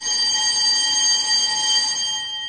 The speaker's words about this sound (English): Well, that bell tells us that we're nearly at the end of the programme.